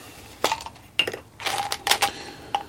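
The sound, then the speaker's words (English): Loose miscellaneous screws clink and rattle as someone rummages through them, giving bright metallic jingles in a few irregular bursts separated by quieter gaps. “I've got some miscellaneous screws over here.”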